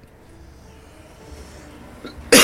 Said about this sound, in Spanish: Usted está bien tosiendo, ¿ah?